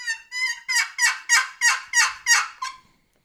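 Turkey call yelps sound as a steady series of loud, raspy, rising-and-falling notes, many in quick rhythm, with no voices.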